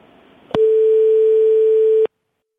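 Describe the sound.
A steady telephone line tone sounds while a hospital switchboard transfers a call, one continuous mid-pitched hum lasting about a second and a half, with a sharp click at its start and end, then silence.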